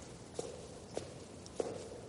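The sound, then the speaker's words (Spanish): Footsteps climb the stairs of an apartment block, whose staircase rises around a light well. Three faint, evenly spaced soft thuds sound alone over quiet background hiss. “En un bloque de pisos, Ágata sube las escaleras vestida con su abrigo marrón.”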